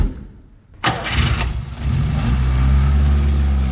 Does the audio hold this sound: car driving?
yes